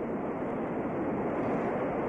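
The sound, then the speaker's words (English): The Zambezi river waterfall roars in a continuous, dense rush of falling water, steady in level throughout and without any voices. “What happens to the river? 1,000 yards of river compressed into a 20-yard waterfall.”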